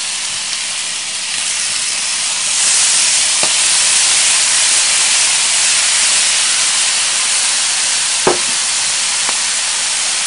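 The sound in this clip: Soy sauce sizzles in a hot pan of fried rice. A steady, loud hiss swells after a couple of seconds and holds, with a few brief taps and clinks on top.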